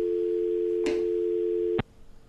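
A steady, unbroken telephone tone after a dropped call, holding one mid-pitched note with a brief click partway through, then cutting off with another click and leaving faint noise.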